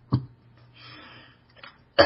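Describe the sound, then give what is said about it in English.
Harsh coughing from a person with a lingering cough: a sharp burst at the start and another at the end, with a faint, noisy stretch between them. No talk. “this cough is still bothering me.”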